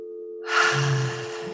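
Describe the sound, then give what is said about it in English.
A single deep breath drawn in during guided meditation, an airy inhalation lasting about half a second, heard alone against quiet. “And what we're going to do is breathe in,”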